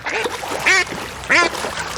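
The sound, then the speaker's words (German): Ducks quacking among animals living in Berlin: two loud, nasal quacks stand out above a rough bed of softer calls. “Enten.”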